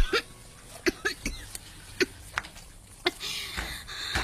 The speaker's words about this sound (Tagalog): Nga nga nag-uubo-ubo ako.